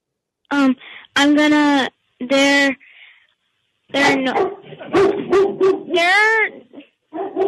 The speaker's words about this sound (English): That's my dog. Your dog? I thought it was your dad.